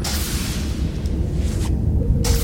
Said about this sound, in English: He's firing all these torpedoes, just destroying the planet behind him.